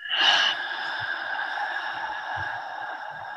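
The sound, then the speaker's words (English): A slow, deep breath during a gentle yoga breathing exercise: a long, airy hiss, strongest at the start, then held steady and smooth for several seconds, with no speech. “One last time. Deep breath in. And out through the mouth.”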